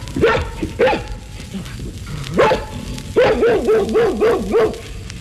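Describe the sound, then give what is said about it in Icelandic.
A dog barks in a loud series of short, sharp barks and yips, spaced out at first and then coming in a quick run of repeated barks near the end. “Fugl dagsins var hundur.”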